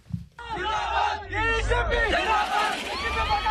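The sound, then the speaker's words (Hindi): A large crowd in Hyderabad chants zindabad in celebration, loud overlapping shouts and cheering voices rising in repeated waves throughout. “जिंदाबाद का शोर मचाती और जश्न मनाती ये आवाजें दक्षिण भारत के शहर हैदराबाद से आ रही हैं।”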